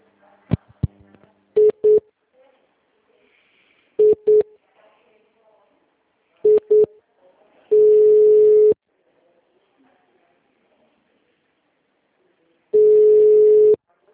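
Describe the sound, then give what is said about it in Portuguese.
Telephone dialing and line tones: a few clicks, then three pairs of short beeps at one pitch, followed by two long steady tones separated by several seconds of near silence. “Liguei para Fagner.”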